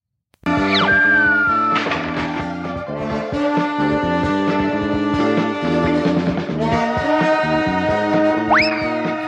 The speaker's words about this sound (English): So another hallmark of Filmation shows is it's not enough to show the action, right? Everything needs these weird, wacky sound effects like this.